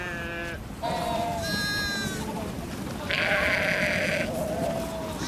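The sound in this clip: Lambs and sheep bleat as the flock is turned out to pasture, their calls overlapping and wavering without a break. Higher, thinner lamb cries mix with fuller bleats throughout.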